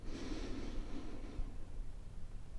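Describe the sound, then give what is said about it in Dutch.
A slow, deep breath drawn in through the nose during a guided relaxation exercise, heard as a soft, airy hiss that runs unbroken for a couple of seconds, faint and alone. “Adem diep in door je neus”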